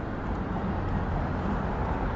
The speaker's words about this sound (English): Well, there was also a break in the traffic. So here come all the cars on our right.